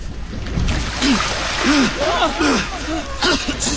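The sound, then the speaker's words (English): The tide rushes into a sea cave, a continuous surging roar of water splashing against rocks. Low, wavering moaning tones rise and fall above the noise. “The tide is coming in so fast, we would be dashed to pieces against the rocks.”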